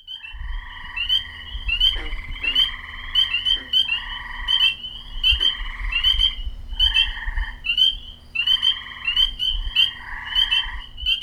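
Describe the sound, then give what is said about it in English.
Frogs croak in a large, flat, seasonally wet area in Tazewell County, Virginia, in spring: many loud, raspy calls arrive in repeated bursts over a steady low hum, with no voices. “Along U.S. Business Route 19 in Tazewell County lies a large, flat, seasonally wet area that attracts lots of loud amphibians in spring”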